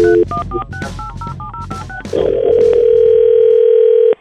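Telephone call being dialed: a quick run of DTMF keypad tones, about a dozen short beeps in an irregular rhythm, then a steady sustained ringback tone that holds loud and alone until it cuts off.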